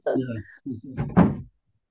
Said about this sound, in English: I got to close my door here. My dog is barking.